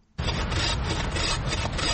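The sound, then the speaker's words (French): Steady rasping of a hand saw cutting black wattle acacia, an invasive Australian wood, as loggers work in a dense thicket in South Africa. The loud, continuous scraping starts abruptly and holds evenly to the end. “Une scie à la main, les bûcherons s'activent dans un épais taillis de black wattle, un acacia originaire d'Australie, importé en Afrique du Sud.”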